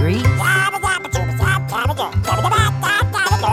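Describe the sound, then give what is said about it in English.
Duck-like quacking within a song: nasal, honking calls repeat in a quick, regular rhythm over loud, steady musical backing. “the little duck quacks and he's on his way”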